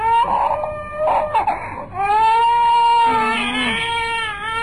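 A small child cries alone with loud, wailing sobs: broken bursts at first, then long sustained tonal cries with a brief lower whimper.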